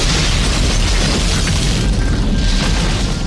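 A petrol-soaked charcoal grill explodes after a lit lighter is thrown onto it, a loud, dense roaring blast that stays at full force, rumbling and hissing, for the whole few seconds.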